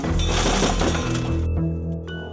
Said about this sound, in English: To make it look like a robbery, she threw a piece of firewood through the sliding glass door.